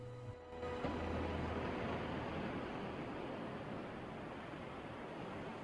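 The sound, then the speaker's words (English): White water breaks against a broken reef surrounding a small island, making a faint, steady rushing wash of surf that continues without a break. “White water is breaking against a broken reef that surrounds it.”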